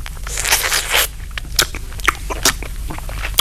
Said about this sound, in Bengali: চুপ করে খাও তো। হ্যাঁ খাচ্ছি খাচ্ছি খাচ্ছি।